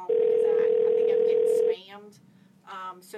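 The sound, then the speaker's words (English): A loud, obnoxious phone ringtone holds one steady pitch for under two seconds, then cuts off as a voice begins speaking. “what's with the really loud, obnoxious ringtone?”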